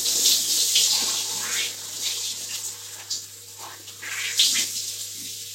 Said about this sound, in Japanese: とりあえずリンス流していきます。これリンスの流し忘れが一番、大変で、あとあとめんどくさいんで、ちゃんと流していきます。